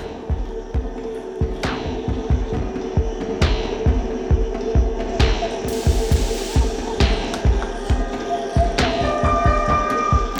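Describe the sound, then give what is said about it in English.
A yellow corrugated plastic hose whirled overhead at a city park entryway gives a steady humming drone with fast, even throbbing pulses throughout, joined by a brief brighter hiss midway. “The first sound you hear is me whirling a yellow corrugated plastic hose above my head.”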